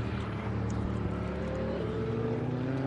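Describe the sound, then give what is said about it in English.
A truck pulls off a racing circuit, heard as a steady, low engine drone with a constant hum that holds at an even level for about three seconds. “truck pulling off the circuit there, disturbing my thought pattern there for a second.”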